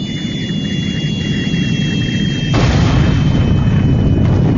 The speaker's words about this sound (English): all right, boys, strike the launch pad and move in the Venus set. Cue the rocket.